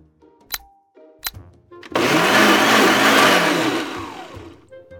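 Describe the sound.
A blender whirs through a smoothie of coconut milk, apples, pear, spinach, almond butter and ginger. Two sharp clicks come first, then a loud, roaring motor run of about two and a half seconds that tapers off at the end.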